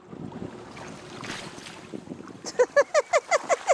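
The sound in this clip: Paddling a folding kayak on water: steady wind and water noise, then a quick, regular run of short squeaking strokes grows loud toward the end.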